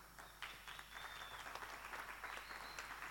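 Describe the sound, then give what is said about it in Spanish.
Faint audience applause at a live experimental music concert: a soft, continuous patter of many hands clapping at an even level from start to finish, with a low steady hum underneath. “le damos un fuerte aplauso”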